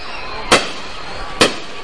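Two sharp fireworks blasts crack far off at a fireball festival in Nejapa, spaced about a second apart over a quiet background.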